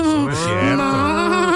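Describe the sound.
A cow moos in one long, loud, drawn-out call. The low, rich tone wavers in pitch across its whole length.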